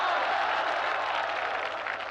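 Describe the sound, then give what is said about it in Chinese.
Audience applause at a Peking University evening event, an even, continuous patter of many hands clapping from start to finish with no break. “你们先别鼓掌”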